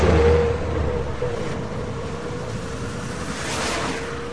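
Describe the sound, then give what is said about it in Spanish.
A steady rumble of road and engine noise from inside a moving car at night, on a ride home in a friend's car. The hum is constant and fairly loud, with no voices. “Estoy en el coche de Pedro. El mío me ha dejado tirado. Mi amigo se ha ofrecido a llevarme a casa.”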